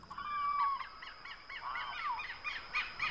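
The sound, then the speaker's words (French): Birds chirping in daylight on a town square: many quick, high chirps and twittering calls that overlap continuously, faint and without voices. “Puis maintenant, il fait jour. On entend des piaillements d'oiseaux, des rires d'enfants.”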